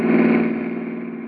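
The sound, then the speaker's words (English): A car's engine hums along a road as a steady, fairly loud mid-pitched drone that eases off slightly toward the end. “Here comes a car with only one guy in it.”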